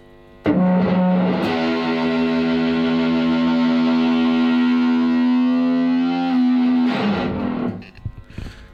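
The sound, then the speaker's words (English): A full chord played on electric guitar through a Russian Big Muff distortion pedal rings out with thick fuzz and long sustain for several seconds, followed by a brief second strum that quickly dies away. “Can we hear a whole chord with the Big Muff?”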